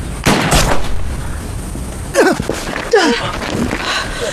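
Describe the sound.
Gunshots ring out during an armed confrontation: a few sharp, loud bangs over a noisy background, with gasping or strained vocal sounds around the later shots.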